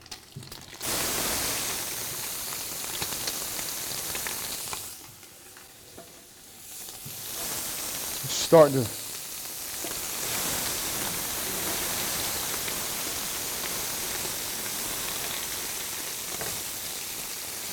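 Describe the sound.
Onion sizzling in a hot pan: a steady hiss of frying that drops away briefly, then returns with a short scrape of stirring, and goes on sizzling evenly to the end.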